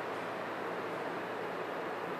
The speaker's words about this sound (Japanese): この電車は長津田と鷺沼で各駅停車に連絡いたします。